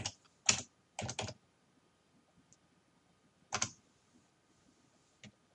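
Computer keyboard typing comes in short bursts of a few clicks, separated by quiet pauses, with no talk.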